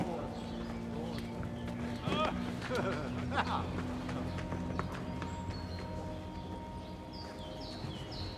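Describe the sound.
Horse hooves clip-clopping in a steady rhythm of hard, hollow knocks, set against a continuous tonal background.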